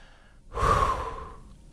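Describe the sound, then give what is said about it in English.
A big, deep breath from a baseball batter during a timeout after strike one: a single loud, breathy rush that swells quickly, then fades over about a second, with no talk. “takes two big, deep breaths before digging back in and walking it off.”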